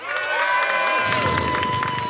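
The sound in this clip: An audience cheers and shouts, with some clapping, as it votes by applause for the team judged to have made the best case in a comedy debate game. The whooping voices are loud and continuous, and the cheering stays energetic throughout.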